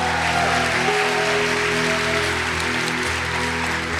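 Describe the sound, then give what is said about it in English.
Applause from an audience welcoming a nine-year-old boy at his baptism service, a dense, even clapping held steady throughout over a sustained tonal hum. “Everybody make some noise for Xander.”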